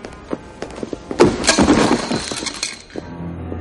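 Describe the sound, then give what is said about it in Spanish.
A cardboard box full of objects is knocked down in a hallway. A few light knocks come first, then a loud burst of clinking and rattling as the contents tumble, fading to a few scattered taps. “Al cruzarse, Steslan golpea la caja de Slee haciéndola caer.”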